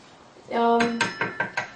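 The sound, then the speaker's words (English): Metal pot and utensils clatter while boiling pasta is checked. A brief ringing clang is followed by a quick run of several sharp, bright clinks that gradually fade. “I'm checking on my pasta to see if they're done. Whoa, they're almost done.”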